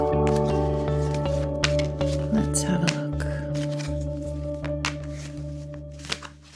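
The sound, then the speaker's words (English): A tarot card is drawn from a deck with the left hand, giving soft papery shuffles and slides over steady, rhythmic background music. “Pulling a card now with my left hand, my intuitive hand.”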